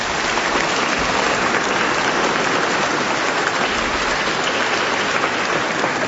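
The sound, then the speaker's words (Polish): Warm applause for a parish passion choir fills the whole clip as dense, steady clapping that stays loud and even throughout. “I dziękujemy temu chórowi, może oklaskami serdecznymi,”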